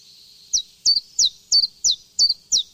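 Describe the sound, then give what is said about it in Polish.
Bird calls in Gliwice: seven sharp, high chirps, each a quick downward-slurred note, repeated at a steady, even rhythm with no other sound or voices. “Pani Ania informuje, że teraz w Gliwicach no po prostu koncert ptasi. O, jakbyśmy w Gliwicach byli.”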